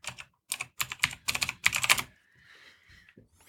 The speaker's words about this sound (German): Okay, ja, ich schreibe die Links gerade alle mit rein.